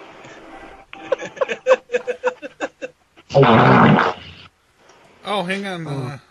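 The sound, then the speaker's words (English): A fart sound: one long, loud, rasping blast of about a second. It sits among other short rapid bursts and voice-like sounds. “The snake, it breathes farts.”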